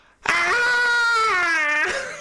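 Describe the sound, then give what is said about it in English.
A human voice imitates a banshee-like wailing squeal: one loud, sustained, high-pitched cry that holds steady and dips slightly before trailing off. “squeal goes on, this banshee wail”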